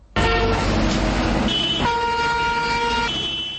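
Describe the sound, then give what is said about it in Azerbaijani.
Car horns blare through city traffic in Moscow: loud, sustained, overlapping horn tones that shift pitch partway through and hold steadily over a dense bed of engine and road noise for the whole stretch. “Moskvada maşınların səsi, təyyarələrin uğultusu, tikintilərdəki hay-küy bir-birinə qarışıb.”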